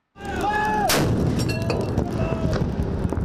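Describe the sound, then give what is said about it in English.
Artillery fire from a 21-gun salute by 25-pounder howitzer guns at the National Day Parade, with a loud blast that fills the air and is followed by sustained rolling noise and faint tonal whistles. “Come 9 August, four 25-pounder howitzer guns on the Mobility 3rd Generation Draft will fire a 21-gun salute.”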